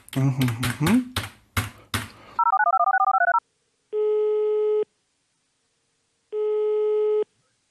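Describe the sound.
A phone call is placed: after quick keypad clicks and a warbling electronic burst, two long, steady ringback tones sound with silent gaps between them, clean and moderately loud, with no one talking.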